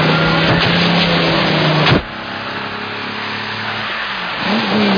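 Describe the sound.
A car drives off, its engine roaring loud and steady, then dropping abruptly to a lower drone partway through before swelling again near the end.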